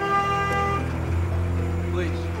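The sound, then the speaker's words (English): A van pulling away and stopping, with a low steady engine hum under sustained horn-like tones, and talking over it. “The van pulled away. But the police stopped it just around the corner.”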